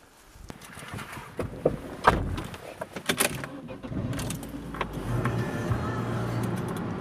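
A car drives off as people set out to collect stones for a model of a meteorite crater. Rattling, clattering handling noises come first, then a steady engine hum builds and holds.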